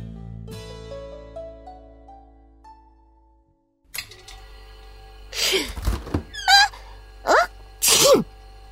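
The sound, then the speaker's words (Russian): A dog sneezes a few times in sharp, loud bursts. A thunk and a short run of rising chime tones come before the sneezes. “Сегодня все утро чихала.”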